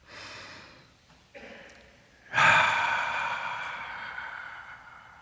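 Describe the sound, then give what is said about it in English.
A deep breath in and out: a slow, airy inhale, a short pause, then a louder, breathy exhale that starts strongly and fades gradually until the end. “So, if you are ready, let us take a deep breath.”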